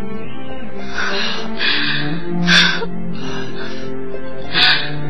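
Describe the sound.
Woman crying in a Huangmei opera drama: several sharp, gasping sobs rise at uneven intervals over a steady sustained tone, with quieter whimpering breaths between them.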